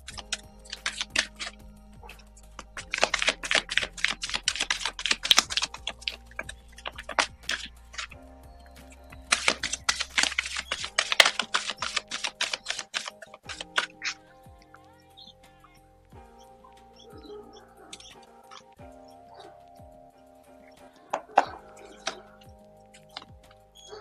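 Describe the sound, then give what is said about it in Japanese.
Fortune-telling cards are shuffled in two dense bursts of rapid crackling riffles, followed by quieter, scattered flicks and taps as the deck is handled. “それでは今日のね、占いやっていきましょう。カードをシャッフルいたします。少々お待ちください。”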